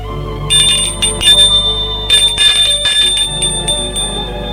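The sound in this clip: A bell rings at a house door, sounding a few bright, metallic rings with lingering high tones over a steady low hum.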